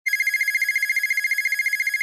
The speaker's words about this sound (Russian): Граф поднял телефон